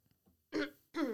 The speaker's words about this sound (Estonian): Vabandust, ikka kõhatust tuli.